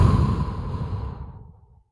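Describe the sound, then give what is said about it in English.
A long mouth exhale from a slow, paced breathing exercise: one steady breathy rush that starts full and gradually thins and fades to silence. “exhale for four, through the mouth. So in through the nose again, in for two, hold for two or four, exhale,”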